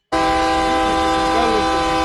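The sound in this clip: A train horn blares one loud, steady, chord-like tone that starts abruptly and holds unbroken to the end, with no voices over it.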